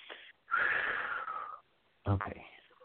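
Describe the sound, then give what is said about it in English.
Breathing in through the nose and out through the mouth in a guided breathing exercise: a long, airy, slightly wheezy breath and then a shorter, sharper breath after a brief pause. “One more breath in through your nose and out through your mouth.”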